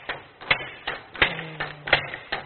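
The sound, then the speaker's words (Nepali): A single machine hammering in a hall of 486 machines gives a steady, evenly spaced series of sharp clacks over a faint low hum. “यो ठ्याक्क एउटा मेसिनले double हान्छ, यो सबै मेसिनले त हानेको हानेकै गर्दा कति आवाज आउला, यहाँ कति मेसिन छ, 486 वटा मेसिन, 486 वटा मेसिनको लगातार यही 486 वटा मेसिनको यो सिङ्गल आवाज हो”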